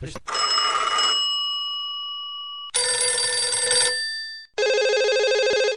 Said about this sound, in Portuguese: Recebi uma ligação aqui, olha o meu celular aqui tocando